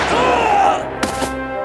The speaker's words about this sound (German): Verdammt, der Schuss muss ich versehentlich gelöst haben.